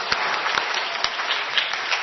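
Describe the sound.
Applause from an audience at the close of a holiday church service, dense, steady clapping that carries on evenly throughout.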